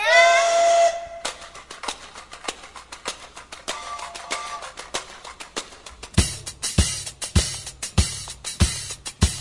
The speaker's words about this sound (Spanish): ¡Pasajeros al tren!